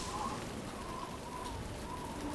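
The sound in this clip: Rain falling in a windy storm, heard as a faint, steady, even hiss of drops without clear breaks.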